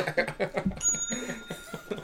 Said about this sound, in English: he's reaching for the bell over there